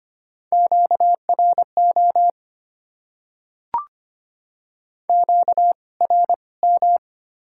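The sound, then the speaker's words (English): High-power radio interference tone: groups of short, mid-pitched electronic beeps repeat in two batches separated by silence, with a single brief chirp in the gap. “Interference. High power.”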